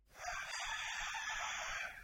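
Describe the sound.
Rooster crowing: a single drawn-out, strained crow lasting about two seconds, fairly loud and alone.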